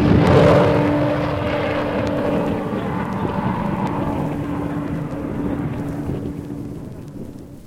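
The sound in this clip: An airplane just after takeoff: a steady engine drone with a low, constant hum that slowly grows fainter over several seconds.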